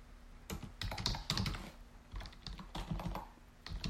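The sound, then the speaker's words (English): Rapid typing on a computer keyboard: many sharp plastic key clicks in an uneven, continuous rhythm, with a few louder presses standing out and no voices. “you're seeing me type in real time right now. And I must have hit the insert button because now I'm overwriting all my text.”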